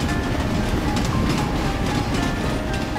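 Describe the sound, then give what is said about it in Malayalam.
A train rumbles steadily into Rameswaram along a rail line with sea on both sides, after days of nonstop rain and a cyclone warning. A dense, continuous roar carries faint rhythmic clacking throughout, with no talk. “Train രാമേശ്വരത്തേക്ക് പ്രവേശിക്കുകയാണ്”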